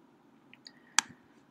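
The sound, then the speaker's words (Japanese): A single sharp, brief computer mouse click sounds in near silence. A couple of fainter small ticks come just before it. “この状態でショップを作成をクリックしてください。”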